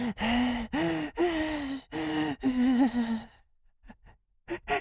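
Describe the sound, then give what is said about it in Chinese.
A voice acts out a freed captive's heavy gasping for fresh air after a sock gag is pulled from his mouth: several long, loud, voiced gasps and groans in a row, then a few short, faint breaths. “李长河喘着新鲜的空气呀，大口的呼吸呀”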